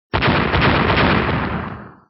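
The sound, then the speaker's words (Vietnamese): A series of explosions rendered as one dense, booming roar that bursts in suddenly, stays loud and rumbling for about two seconds, then gradually fades out, with no voices. “Những tiếng nổ vang liên tiếp vang lên.”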